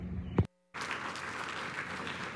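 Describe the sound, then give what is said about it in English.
A church audience applauds to welcome a pastor. A brief thud and a short silence come first, then dense, even clapping holds at a steady level to the end. “Three Creeks, would you join me in putting your hands together, hoot, holler a little bit, show Trey Gilmore that we love him, give Trey Gilmore a Three Creeks welcome.”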